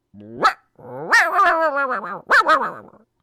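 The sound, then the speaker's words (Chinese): A dog barking and yelping in a few sharp, high bursts, with the middle call drawn out into a long, wavering whine before two final quick barks, loud and alone. “怎么的？有狗叫唤。”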